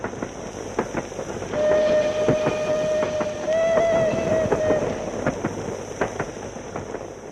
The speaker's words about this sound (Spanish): El tren nos lleva a Rostoky, un pequeño pueblo situado al norte de Praga